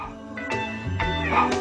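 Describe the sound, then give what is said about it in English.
A dog's barking set to a Christmas tune comes as pitched, tonal bursts over a musical backing, with a few barks arriving on a steady beat. “We're playing him barking to a Christmas tune.”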